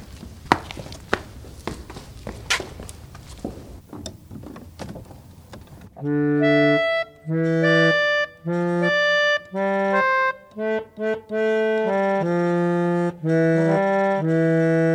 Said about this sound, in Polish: Organy grają, trzeba je nadmuchać nożnie, żeby wydały dźwięki